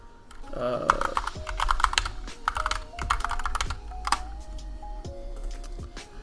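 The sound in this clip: Keys clatter on a computer keyboard in quick, irregular bursts of sharp clicking taps broken by brief pauses, the typing fairly soft overall.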